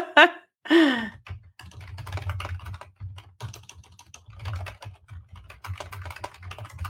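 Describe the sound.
Typing on a computer keyboard: many quiet, quick clicks in an irregular stream over a low hum, with a brief vocal sound at the start.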